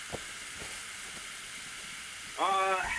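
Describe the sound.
A cube steak sizzles on a $25 panini press with a constant, even hiss, and a short, voice-like tonal sound rises above it near the end.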